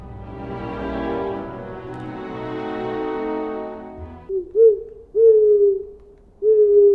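Owl hooting: a few low, steady hoots in the second half, the longer ones drawn out, after an opening stretch of a fuller sustained tone.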